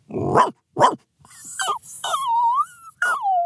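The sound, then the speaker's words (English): A man imitates a dog, giving two short, gruff barks followed by a few high whining whimpers that slide downward in pitch, loud and clear with no other sound around them. “Michael has some pretty awesome dog impressions in his toolkit.”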